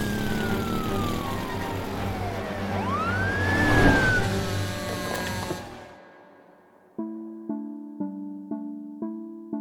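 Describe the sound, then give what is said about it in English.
A car engine at full throttle, roaring loudly with a rising whine and sweeping tones, then cutting off abruptly; a series of repeating tonal notes follows. “Are you flooring it? I am literally flooring it!”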